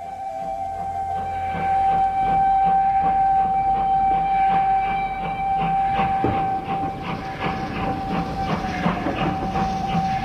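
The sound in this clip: A train runs steadily, with a loud, continuous rumble, a regular clickety-clack of wheels on the rails and a steady high tone throughout.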